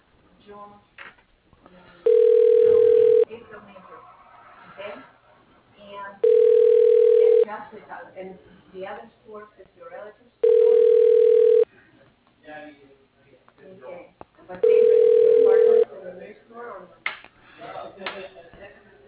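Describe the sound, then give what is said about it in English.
Telephone tones play while a call is transferred: four steady, mid-pitched tones of about a second each, evenly spaced and alternating with a recorded voice speaking between them. “Thank you for calling TAM. Your call is being transferred.”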